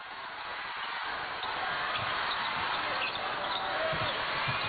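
Basketball dribbled during a game against a Czech team applying a full-court press. Faint low bounces sit beneath a steady roar of crowd noise.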